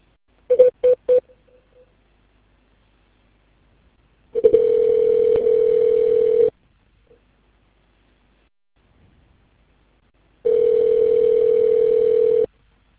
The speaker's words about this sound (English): Otherwise, press 0 for the receptionist, or stay on the line and someone will assist you shortly. Wait while I transfer your call.